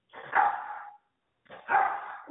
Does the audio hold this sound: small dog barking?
yes